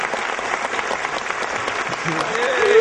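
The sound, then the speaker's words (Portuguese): Applause greets a guest thanked for taking part, a steady, dense patter of clapping that swells louder toward the end, with some voices mixed in. “Salva de palmas pro Capelano pra sua participação aqui.”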